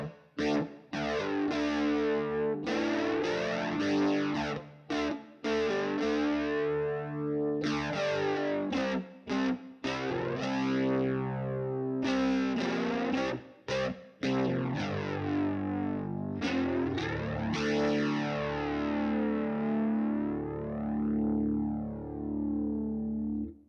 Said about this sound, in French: L'effet ici flanger est assez subtil, assez lent. Il va vraiment créer un décalage sur plusieurs mesures. Voilà ce que ça donne du coup.